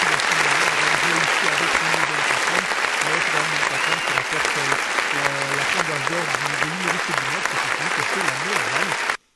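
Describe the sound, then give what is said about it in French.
Audience applause at a live show: dense, steady clapping that holds for about nine seconds and then cuts off abruptly, with a voice audible underneath. “Allez, on peut le réapplaudir aussi, on peut le réapplaudir aussi, euh, voilà, pour changer un peu.”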